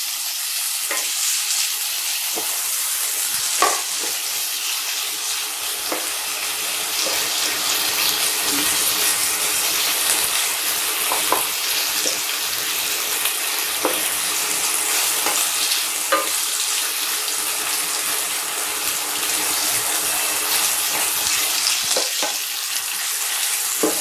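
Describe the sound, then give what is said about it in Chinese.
Sliced dried tofu frying in a wok gives a loud, steady sizzle that runs throughout, dotted with scattered pops and crackles. “首先把香切好片的香干放进锅里炸一下，这样才会更香。”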